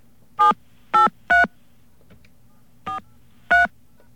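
Telephone keypad tones entering a voicemail password: five short, steady beeps at uneven intervals, the fourth quieter than the rest, with no talking.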